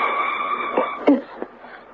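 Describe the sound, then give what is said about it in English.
Airy, wheezing breaths drawn through a tube, heard as a continuous hissing rasp with a few brief, sharper puffs. No voices accompany it. “Can you hear him? What is he doing? Breathing through a tube.”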